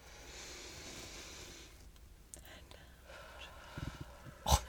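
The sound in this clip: Stomach rumbling during a slow deep-breathing exercise: a few soft, low gurgles near the end over faint breathy background noise, closed by a brief louder thump.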